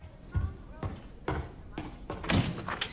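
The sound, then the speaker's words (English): Heavy thudding footsteps as a young boy stomps to the door, a few loud, uneven thumps spaced roughly half a second apart over a low background. “The young boy stomps to the door.”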